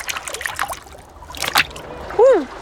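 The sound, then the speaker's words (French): A dog's paw dipping into sea water gives soft trickling and small splashes over a steady watery wash. “Il met une patte dans l'eau.”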